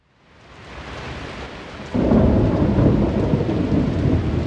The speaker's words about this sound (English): That's the sound of the downpour in University City yesterday afternoon.